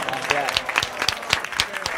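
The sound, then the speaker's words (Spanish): A short applause sound effect: a quick burst of distinct, fairly sparse claps at an even level for two seconds. “Por favor, un aplauso. Te he puesto un huevo. Señora de los aplausos.”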